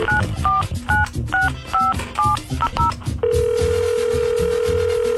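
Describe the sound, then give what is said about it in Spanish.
Telephone keypad tones dial a contest winner's number as a rapid series of paired beeps over a busy background. A steady, continuous ringing tone follows. “ahí ya lo traes y vamos a marcarle a ver si contesta”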